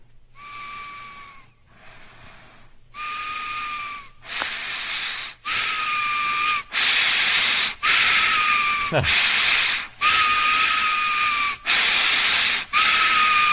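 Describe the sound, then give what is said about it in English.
Loud whistling breaths through the nose, many in a steady rhythm, each carrying a high, thin whistle tone over an airy wheeze. “Stop it! Breathe through your damn mouth!”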